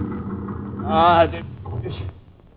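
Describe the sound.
A car motor rumbling low and unevenly, then sputtering and dying away near the end, with a voice calling out briefly over it.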